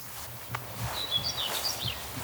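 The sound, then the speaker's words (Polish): A common whitethroat calls with short, scratchy, high-pitched chirps that come in a brief faint burst over soft rustling background noise. “Tutaj niedaleko zgrzytliwie cierniówka się odzywa. Niewielki ptaszek, rdzawy wierzch, jasny spód.”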